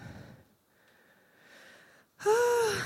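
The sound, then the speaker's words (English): A slow, deep inhalation, heard as a soft airy hiss lasting a couple of seconds, then a louder, brief wheezy voiced breath. “Breathe in.”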